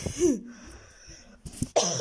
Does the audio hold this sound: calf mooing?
no